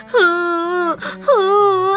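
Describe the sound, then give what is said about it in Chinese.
Crying of a mother squirrel in a children's story, voiced by a performer: two long, loud wailing sobs, each dipping in pitch at the start and then holding a steady tone, split by a short breath. “松鼠妈妈还是不停的哭。”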